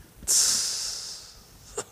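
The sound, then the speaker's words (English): One sneeze bursts out sharply, then trails into a long, breathy hiss. A brief, faint breath or sniff follows. “sneeze? Corona. God bless you.”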